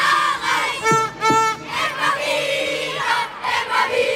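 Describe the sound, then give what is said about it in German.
Crowd of fans cheering and singing in a sports hall, a loud continuous roar of many voices with raised, chant-like shouts swelling and easing throughout. “Babsi Schulz, da wird schon gesungen. Freude groß, oder?”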